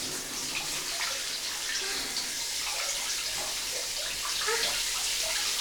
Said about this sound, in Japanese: シャワー当ててみて、こっちに押してみる